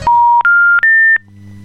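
Telephone dialing tones sound as a studio calls an expert. Three loud, steady electronic beeps follow one another, each slightly higher in pitch than the last, and a faint low line hum remains after them.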